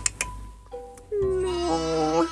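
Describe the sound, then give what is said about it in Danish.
A lamb bleating, a few light clicks and taps followed by a sustained, wavering, nasal cry that holds steady before tapering slightly. “Ej, men altså, har du nogensinde set et, et lille lam? Det er noget af det cuteste. Nej, kom her.”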